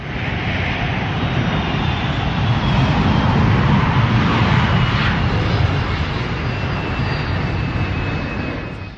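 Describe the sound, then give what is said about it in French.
An airplane taking off as a sound effect: a dense, loud engine roar that holds steady for several seconds, swells slightly midway and eases off toward the end. “Allez, accrochez vos ceintures. Décollage immédiat vers l'univers des écoquartiers.”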